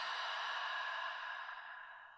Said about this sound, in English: Open the mouth, exhale, let the sits bones get heavier.